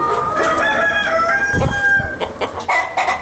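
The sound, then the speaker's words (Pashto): Chickens on a poultry farm of about four hundred birds in Ghazni city: many overlapping clucks and squawks with a rooster crowing, fairly loud and continuous throughout. “د غزنی ښار په غیبی کلندر سیمه کې د لږ ډیر څلور سوه چرګو چرګانو فارم”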